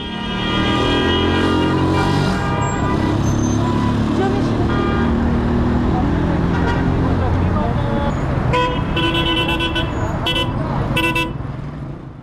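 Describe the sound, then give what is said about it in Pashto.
Traffic at a busy vehicle and bus stop in Kabul, with repeated car and bus horn toots sounding over a constant engine rumble and roadway noise, and voices mixed into the background. “زه هم د کابل ښار د موټرونو یو تم ځای ته چې هلته خلکو په ساعتونو د موټر یا ملي بسونو انتظار کوه ورغلم”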